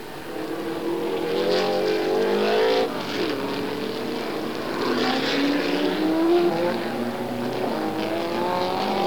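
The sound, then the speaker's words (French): Racing car engines roar on a track, a Cobra and an Alfa Romeo among them. The loud, sustained, rasping drone is continuous and shifts in pitch as the cars rev and change speed. “Et voilà que la Cobra de Johnson prend l'échappatoire. Une Alfa Romeo est sortie de la route.”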